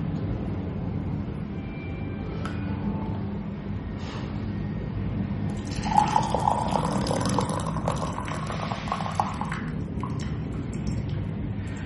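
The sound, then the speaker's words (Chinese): Brewed Pu'er tea poured out of a teapot after a short steep: a steady splashing stream begins partway through and runs for a few seconds over a low background hum, then tapers off. “这泡茶的一个浸泡时间差不多是在，嗯，十五秒左右。那我们现在再来就可以来出汤了。”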